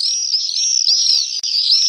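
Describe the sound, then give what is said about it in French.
Common swifts calling: continuous shrill, high-pitched screaming trills that overlap and waver without a break, loud throughout. “c'est le martinet noir qui va emprunter les courants ascendants et dormir dans le ciel”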